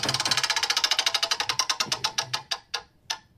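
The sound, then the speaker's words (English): A spinning prize wheel's pointer clicks rapidly against its pegs. The clicks gradually space out and slow, ending in a few separate ticks as the wheel comes to rest. “Anyway, we're about to spin the wheel. There we go.”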